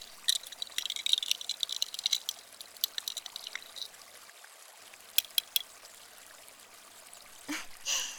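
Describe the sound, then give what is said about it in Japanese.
Strong carbonated soda poured in and stirred makes a crisp fizzing crackle of many tiny pops that gradually thins out, with a brief louder rustle near the end. “私はあの強炭酸ソーダを入れてかき混ぜる。”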